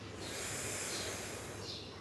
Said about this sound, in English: Exhale from the left nostril. Inhale from the left. Exhale from the right.